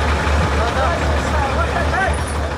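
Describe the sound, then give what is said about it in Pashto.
Large trucks on the highway between Uruzgan and Kandahar, helping small cars through mud and rough ground, make a continuous loud engine rumble with voices mixed in. “دا د روزګان او کندهار د لوی لارې پر سر غټ موټرونه دي”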